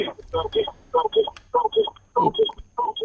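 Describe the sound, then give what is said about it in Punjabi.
A caller's radio set plays in the background of a telephone call to a farm-advice phone-in, coming through as thin, line-filtered voices in choppy bursts of speech with brief pauses and a faint low hum underneath. “ਉਹ ਮਾਲਕੋ radio set ਦੀ ਆਵਾਜ਼ ਘਟਾਓ। Hello, ਆਪਣਾ radio ਬੰਦ ਕਰੋ ਪਹਿਲਾਂ।”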